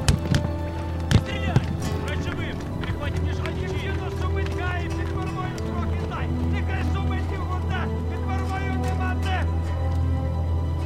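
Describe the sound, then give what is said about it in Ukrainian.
Horses carrying mounted riders trample along the top of a steep riverbank: a dense, continuous clatter of hooves over a low rumbling background, with voices in the mix. “Над його головою тупцюють коні із вершниками-вбивцями.”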